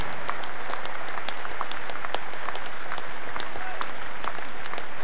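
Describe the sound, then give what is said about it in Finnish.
A concert audience applauds the touring staff with steady, dense clapping that holds at an even loudness for the whole stretch, without a break. “Ja annetaan meidän henkilökunnalle aplodit.”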